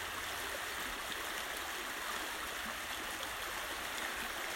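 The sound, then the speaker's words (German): Babbling brook with a steady, continuous rush and trickle of running water, faint and unbroken throughout, with no other sounds standing out. “Nimm dieses Geräusch von dem Bachlauf mit in deinen Tag, in deinen Abend.”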